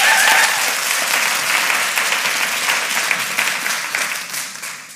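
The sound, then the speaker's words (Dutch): An audience applauds itself, a dense, steady wash of many hands clapping that holds evenly throughout and thins slightly as it fades at the end. “Applausje voor jezelf.”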